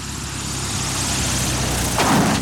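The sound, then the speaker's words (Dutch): A small airplane's engine drones loudly and roughly with a dense, steady low rumble. The noise swells slightly near the end. “Dan horen ze het. Het gesputter van een klein vliegtuigje.”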